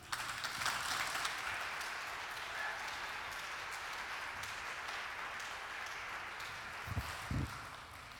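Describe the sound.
Audience applause greets a film-score composer as he comes on stage, a sustained, even wash of clapping that holds steady throughout, with two low thuds near the end.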